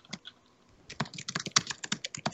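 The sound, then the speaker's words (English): Typing on a computer keyboard: a few isolated key taps, then a dense run of crisp, clicking keystrokes in an uneven, fast rhythm. “I just type that into like stream chat or whatever.”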